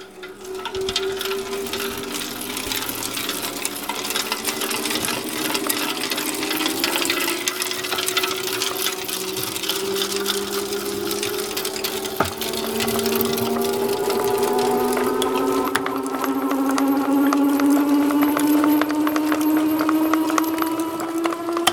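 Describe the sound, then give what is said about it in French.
A wool-breaking machine starts up in a bedding workshop that processes wool. Its motor hum climbs steadily in pitch over a dense, rhythmic mechanical clatter, and it grows slightly louder toward the end. “Donc là, c'est le démarrage de la briseuse. Donc attention, ça va décoller.”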